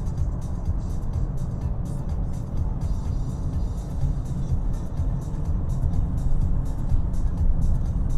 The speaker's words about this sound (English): try and squeeze myself in between some of this faster moving traffic. Little shift down to fifth gear, take fourth. 3000 RPM and 90 kilometers.